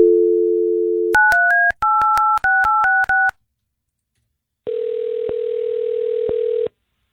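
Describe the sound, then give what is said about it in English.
Landline telephone dialing: a steady dial tone, then a quick run of touch-tone keypresses of varying pitch, a short silence and a single sustained ringback tone for the outgoing call. “Okay, so we're going to get your cousin Nick on the phone. Let's just get right to it.”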